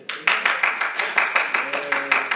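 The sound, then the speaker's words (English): Steady rhythmic clapping from a few people at a church service: many evenly spaced, crisp claps at a regular beat, with a faint voice in the later part. “You got about three of them clapping for you.”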